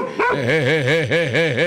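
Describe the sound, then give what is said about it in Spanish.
A small dog gives a rapid run of many short, pitched yips and barks, each rising and falling, in a quick even rhythm. The barking is loud and there is no talk. “¡Ah, va ese otro perrito ahí!”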